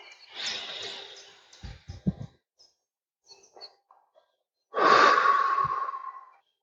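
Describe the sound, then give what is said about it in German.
Slow relaxation breathing, in through the nose and out through the mouth: a soft airy inhale, a quiet pause with a few small clicks, then a long, loud exhale that fades out. “Atmet durch die Nase ein, haltet kurz an und durch den Mund wieder aus.”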